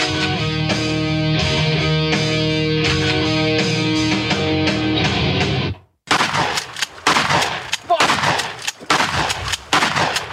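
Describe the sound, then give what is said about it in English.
Shotgun cocking clicks open a song. A sustained, rhythmic musical passage cuts to a brief silence, then loud, sharp percussive bursts follow in quick succession. “In the beginning, there's clicks of a shotgun.”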